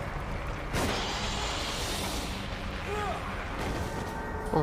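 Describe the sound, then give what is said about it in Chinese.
Pistol shots ring out in a video game, a few sharp, booming bangs over dense game noise, with a voice speaking. “小手枪也是有用的。哎呀，脱离危险。而且很神奇的是，我刚才明明开了三枪”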